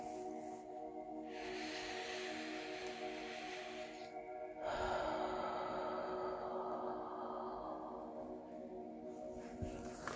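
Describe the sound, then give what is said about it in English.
A slow, deep breath in and then out, heard as a soft, airy hiss that swells, pauses briefly, and returns, faint over a low steady drone. “Deep breath in. And then out. Deep breath in.”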